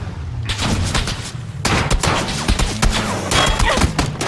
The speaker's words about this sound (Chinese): 这 M16，一枪把我就爆头了